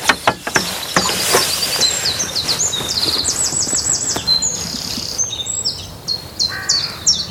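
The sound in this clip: Great tit song: bright, high whistled notes repeated in quick two-note phrases, with other chirps and calls mixed in and a few sharp clicks near the start.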